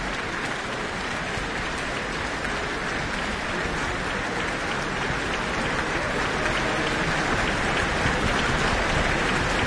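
Sustained audience applause after the Auckland Philharmonia's performance of Beethoven's Second Symphony in D major, a dense, even roar of clapping that grows slightly louder toward the end, with no talk.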